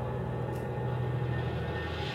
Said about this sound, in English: Another jet passes.